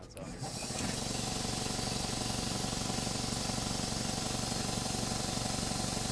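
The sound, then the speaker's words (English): A compressor pumping fuel in a biodiesel processing setup starts up within the first second, then runs as a loud, steady mechanical drone with a low hum and broad hiss that stays constant to the end. “This is a compressor. We use a compressor to pump the fuel.”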